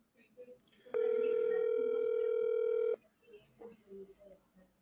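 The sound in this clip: A single steady electronic ringback tone from a phone call that goes unanswered, lasting about two seconds over faint background voices and room noise.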